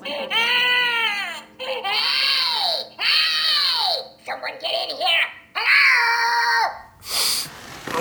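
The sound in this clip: A baby girl cries loudly in several long, high-pitched wailing bouts, each rising and falling, with short choppy sobs between them and brief breaths in the pauses.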